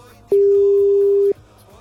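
A telephone ringing tone on a call that goes unanswered: one steady, low, loud beep lasting about a second over a faint background.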